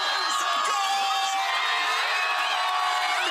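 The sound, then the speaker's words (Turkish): Thousands of football fans celebrate a historic World Cup win in a packed Rabat square with giant screens: a dense, loud roar of cheering voices with high shouts and whoops throughout. “Geç saatlere rağmen meydanları dolduran binlerce futbol sever dev ekranların önünde tarihi zaferi coşkuyla kutladı.”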